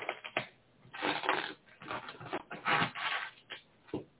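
Tarot card being handled, giving a series of dry papery rustles and slides in uneven bursts, some louder and longer than others, with brief quiet gaps between.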